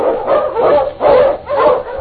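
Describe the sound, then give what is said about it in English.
A husky sled dog, an Eskimo lead dog, barks loudly in a few drawn-out, slightly yowling barks that come in a steady rhythm with short gaps between. “On King! On you, Husky!”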